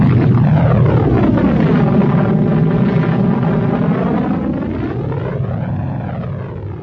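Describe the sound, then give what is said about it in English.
Spaceship thrusters fire as the ship leaps upward, a loud, sustained roaring blast with a deep rumble and sweeping, phasing whoosh tones that slowly ease off toward the end. “Dash hit the thrusters, and the Falcon leapt upward.”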